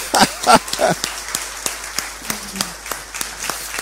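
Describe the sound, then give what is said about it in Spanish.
Audience applause in a church for a couple, a clear run of individual claps in a fairly steady rhythm, louder at first and then lighter, with a brief voice in between. “Pero un fuerte aplauso, claro.”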